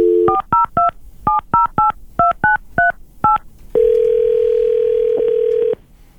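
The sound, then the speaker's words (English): A telephone number is dialled as a quick series of touch-tone beeps in an uneven rhythm, followed by a long, steady ringing tone that cuts off near the end, with no talking. “You stay here right on the line. We're going to call her right now.”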